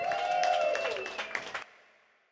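A comedy club audience applauds and cheers as a comedian comes on stage, a dense burst of clapping that gradually thins and fades before cutting off to near silence.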